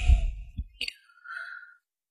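A breathy exhalation blown out through the mouth as a 'chui' breathing exercise: a soft, airy rush of breath, followed by a small click and a faint, thin tonal trace.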